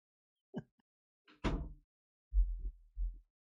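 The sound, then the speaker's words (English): A door being closed in a home: a sharp knock-like bang, followed by a few low, muffled thuds and bumps. “Do you mind if I close my door?”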